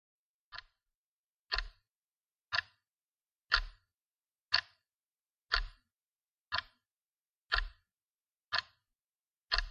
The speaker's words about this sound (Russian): Дом погрузился в тишину, нарушаемую лишь мерным тиканьем часов в холле.